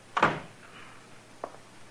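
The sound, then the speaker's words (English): A door is shut in a Kansas town: one solid, muffled thump, then a fainter, brief knock about a second later, with quiet between. “You can go out or stay in, but shut the door.”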